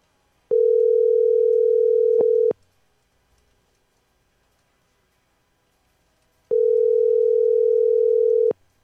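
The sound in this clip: A telephone ringback tone plays while a call is being placed: two steady, even tones of about two seconds each, with about four seconds of silence between them and no voices.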